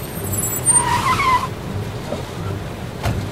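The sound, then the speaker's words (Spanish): Tires squeal as two cars arrive and brake sharply at a bus stop: a high screech lasting under a second over a low engine rumble, followed by a fainter rumble. “y de repente llegaron dos autos al lugar.”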